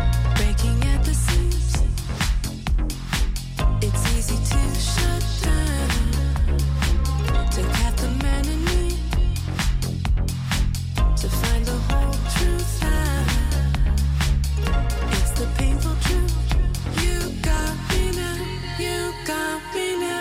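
A house music track with soul, funk and disco roots plays with a steady four-on-the-floor beat, deep bass and bright layered melodic lines. It is loud and continuous and fades out at the very end.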